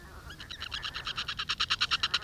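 A bittern calls at its nest: a rapid, even series of many short pulsed notes that grow steadily louder, heard alone over a faint low rumble.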